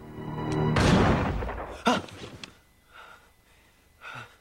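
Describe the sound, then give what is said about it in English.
A rifle gunshot blasts once, loud and broad, then fades in a long rolling decay, followed by a shorter, sharper crack and a few faint, quieter sounds. “A finger pulls the trigger on the rifle in Jim's dream.”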